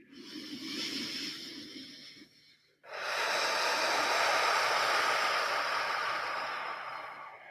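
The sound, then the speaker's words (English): A deep breath is drawn in during a guided breathing exercise. A softer, lower breath comes first, then a loud, steady airy hiss of inhaling that lasts several seconds and slowly eases off. “Or maybe one more time here, deepest inhale.”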